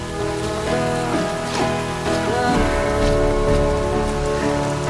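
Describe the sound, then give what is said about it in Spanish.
Steady rain gives a dense, even hiss that runs throughout, mixed with sustained musical tones and no voices. “Llueve.”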